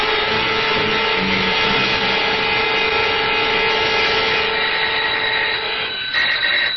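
A doorbell buzzer sounding at the door in a radio drama: one long, continuous harsh electric buzz lasting about six seconds, shifting briefly just before it ends.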